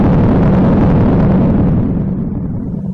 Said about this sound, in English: I enjoy the sound, the explosion. I just love that the sound. Like, it's got the heavy bass, you know? When you blow something up,